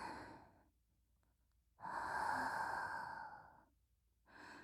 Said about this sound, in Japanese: ほら、息を吸って、息を吐いて、